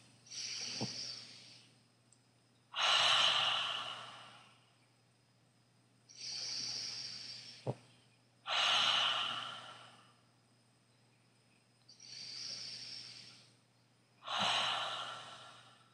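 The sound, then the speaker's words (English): Ujjayi breathing during a seated yoga meditation: six long, smooth, hissing breath rushes with rounded swells and quiet gaps between them, over a low steady hum. “3 Ujjayi breaths.”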